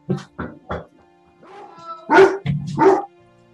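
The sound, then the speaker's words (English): A large dog barks: a few short, sharp barks, then a brief whining tone, followed by louder, fuller barks. “Big dog.”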